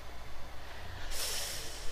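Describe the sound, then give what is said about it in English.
A deep breath comes as a low, airy rush that turns abruptly into a brighter, louder hiss partway through and holds to the end. It is quiet, with no talk. “Breathe deeply in and out.”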